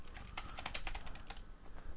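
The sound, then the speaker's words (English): Soft, rapid typing on a computer keyboard as a message is typed out. Many quick, faint key clicks run in an uneven stream, with no voices. “I got to type something here to Dragone.”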